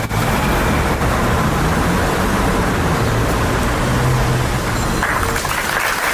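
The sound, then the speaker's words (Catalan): Applause from a crowd outside the town hall of Gandesa after a minute of silence, a dense, unbroken wash of many hands clapping at an even loudness throughout. “Aplaudiments després del minut de silenci davant l'Ajuntament de Gandesa”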